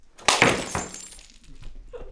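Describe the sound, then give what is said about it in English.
Objects being smashed in an enclosed rage room by a person in full safety gear: a couple of loud, sharp breaking crashes with ringing, shattering debris, then quieter rattling. “we created this room that's enclosed. You put on full safety gear and you smash things.”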